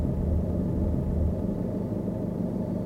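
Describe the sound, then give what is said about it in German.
A taxi engine gives a steady, low rumble with broad road noise. The sound stays constant and fairly loud throughout, with no voices and no clear stop. “Ich beuge mich vor, um ihn zu küssen, als das Taxi vor Simons Haus stehen bleibt.”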